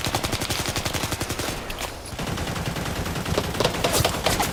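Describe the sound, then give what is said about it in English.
Rapid gunfire from troops shooting into trees, a sound effect in a radio play: dense, continuous volleys of automatic fire that crackle at a steady, loud level with no pause. “Haley bellowed orders as gunfire erupted outward on all sides, peeling the trees of branches and bark.”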